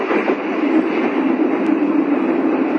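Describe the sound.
Steady, loud rumble of a subway train in motion, a dense continuous roar without distinct clacks or breaks, with no talking.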